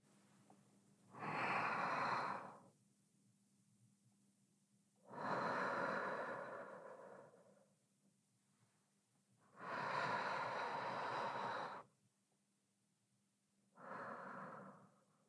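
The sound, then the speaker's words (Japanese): Slow, deep human breathing with long, thin exhales: four drawn-out, airy breaths separated by quiet pauses, soft and faint, with no talking. “深呼吸するときはね、細く長く息を吐き出すようにするといいんだって。”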